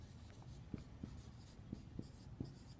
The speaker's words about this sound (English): And really what that is, the first thing, let's write it out first.